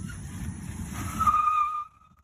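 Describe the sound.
A car driving off, its engine note rising into a thin, climbing whine with a hint of tire noise, fairly loud, before cutting off abruptly into quiet.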